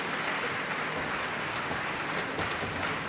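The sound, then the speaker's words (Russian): An audience applauds in a concert hall at the final of a composers' competition: dense, steady clapping that holds an even level throughout, with no voices over it. “эти аплодисменты совершенно точно говорят о том, что Полина действительно заслужила приз”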